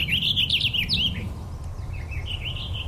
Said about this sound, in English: So it's usually singing fairly up in a tree, not right off the ground. And it's a bubbly song. It's very warbly.